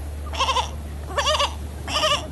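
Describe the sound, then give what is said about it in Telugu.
A male goat tied to a tree before a sacrifice bleats three times, each call a short, quavering, nasal cry, with gaps between them over a steady low hum. “దూరంగా ఒక చెట్టుకు కట్టేసిన బలి ఇవ్వబోయే మేకపోతు”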